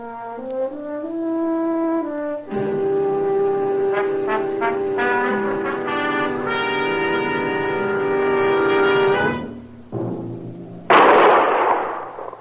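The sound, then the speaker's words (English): A single loud, sharp gunshot fired at a raccoon on the prairie, bursting out abruptly after a stretch of steady music. “By golly, I got him. That was a good shot, Beanie. Marshal, I didn't hear you come up. Well, I kept quiet. I saw you trying to get a sight on that coon.”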